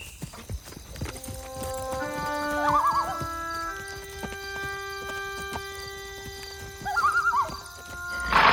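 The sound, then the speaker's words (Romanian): A horse being ridden in a children's fairy tale, with steady clip-clopping hooves throughout and two wavering neighs, one early and one near the end, over soft sustained musical tones. “Bine atunci! Hai, urcă! Au călărit toată ziua și spre seară erau destul de aproape de oraș.”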